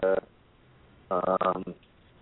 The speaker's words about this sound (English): sorry, my other phone ringing for a second